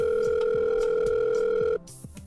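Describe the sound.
An electronic telephone ring: a steady, loud two-tone note held for nearly two seconds, then cut off abruptly, with faint rhythmic sounds beneath it.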